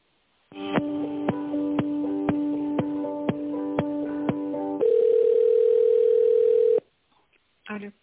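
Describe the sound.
Telephone tones on a business call while it is being transferred to another department: a rapid, regular series of short beeps, then one long steady tone, with no talk over them.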